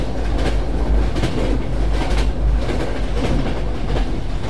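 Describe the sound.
A passenger train on the line from Scotland to London runs on its rails with a loud, steady rumble. Rhythmic clickety-clack wheel beats sound over the low drone.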